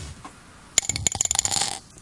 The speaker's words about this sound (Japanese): じゃあ早速俺からサイコロ振っちゃいましょうかね